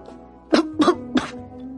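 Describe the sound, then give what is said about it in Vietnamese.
A man gives three coarse, rough coughs in quick succession, harsh and throaty, standing alone against a quiet background with no talk. “Có tiếng ho thô thiển của thằng nào đó phá mất không khí mờ ám.”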